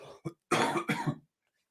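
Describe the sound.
Harsh, raspy coughing from a dry throat: a few short bursts that build into two longer rough coughs, heard alone without talk.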